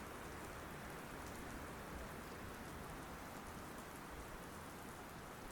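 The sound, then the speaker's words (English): Light drizzle falls in a gusty breeze over rolling hills beneath dark grey clouds, a faint, steady, even hiss of fine rain with no distinct drops or gusts standing out. “There is a little drizzle in the air, and a gusty breeze makes it feel more like proper rain.”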